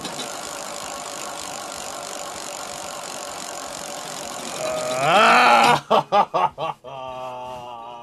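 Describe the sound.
A prize wheel spinning on a computer: a steady noisy hum, then a rising electronic sweep, a few quick ticks, and a sustained tone.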